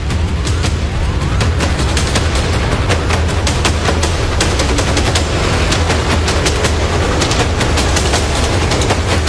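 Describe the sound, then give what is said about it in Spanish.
Firearm shots ring out amid public-order disturbances in the Santa Isabel Villanueva sector. Many sharp cracks come in rapid, uneven succession over a constant low rumble, loud and without speech. “En este momento escuchamos detonaciones de arma de fuego y bastante...”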